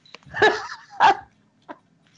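A dog barks twice, with loud, full-throated barks about half a second apart, then gives a short, fainter yip. Quiet gaps separate the barks.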